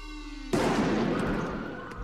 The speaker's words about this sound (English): Oh my god, you shot him.